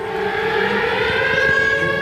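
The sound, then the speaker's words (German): Air raid sirens wail loudly and continuously, several sustained tones layered together in a steady, slightly wavering drone with no voices. “Kurz darauf heulen tatsächlich die Sirenen. Luftalarm.”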